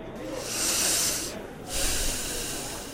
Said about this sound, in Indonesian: Sekarang coba kamu tarik nafas dalam-dalam melalui hidung.